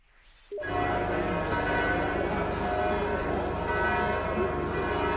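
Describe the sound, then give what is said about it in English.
Church bells ringing out in Bethlehem for morning mass, a loud, dense wash of overlapping peals that bursts in after a brief quiet start and rings steadily without a break. “That's the sound of the bells of Bethlehem, where hundreds of worshipers, pilgrims, and tourists are in the traditional birthplace of Christ for morning mass.”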